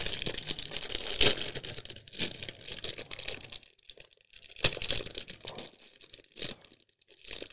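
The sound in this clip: Crinkling and tearing of a package of organic cocoa nibs aged in bourbon barrels as it is opened. Irregular bursts of plastic rustling and crackling come and go, with a few short quiet gaps between them.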